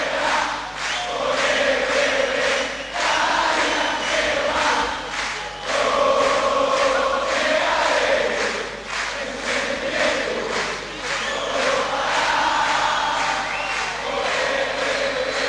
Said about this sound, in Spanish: Se escucha a la gente enfervorizada, no es una ilusión.